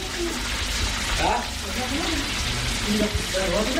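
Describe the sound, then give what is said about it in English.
Food sizzles and fries in a relative's kitchen in Peshawar, a steady dense hiss that runs unbroken throughout, with faint voices underneath. “I'm at a relative's house. I'm spending the night here. and you can hear the food cooking here in the kitchen.”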